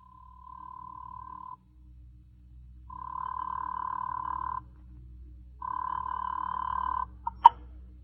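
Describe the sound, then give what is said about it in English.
A telephone line rings while calling the operator, giving three long, even mid-pitched tones separated by silences. A couple of sharp clicks follow as the line connects. “Operator? What do I dial for the police department?”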